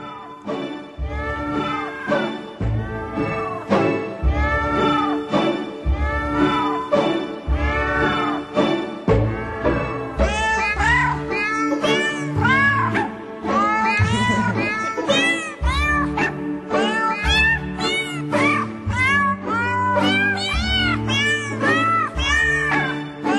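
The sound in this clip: Cat meows sampled and arranged into a birthday tune, many pitched mewing notes following the melody over a steady, rhythmic backing with a thumping bass line throughout.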